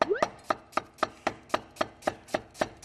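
A knife slices an onion into medium-thick pieces for stir-frying, many crisp, evenly spaced chops striking a cutting board in a steady, brisk rhythm, fairly quiet with no talk.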